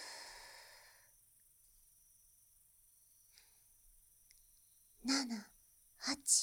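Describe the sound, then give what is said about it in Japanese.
Slow, counted breathing: a long breathy exhale fades out over the first second, then a long quiet pause, and finally a couple of short, voiced breaths near the end. “1、2、3で吸って、4、5、6で吐く。”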